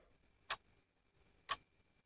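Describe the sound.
A clock ticks at midnight, two crisp, sharp clicks spaced exactly one second apart and standing out clearly against an otherwise quiet, faint background with no voices.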